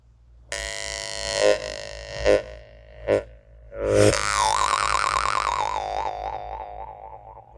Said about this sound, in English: what the Saka blacksmith used for Saka mouth harp, we call that homus. It's very, very, it sounds really clean and rich.